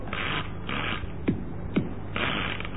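A punched card is fed into a machine that works out weather conditions. Dry rustling, sliding scrapes come in a few bursts, with two short, sharp descending squeaks between them, and no voices.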